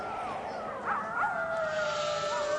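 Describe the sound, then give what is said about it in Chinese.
Wolves howl in long, sustained, wavering tones that overlap one another and hold steady over a constant hiss of background noise. “有狼来了，下面的朋友赶紧跑。”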